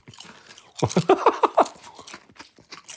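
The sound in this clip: Crunchy bites and chewing of pineapple-flavoured snacks: a cluster of loud, crisp crunches in the middle, then softer, quicker chewing clicks to the end.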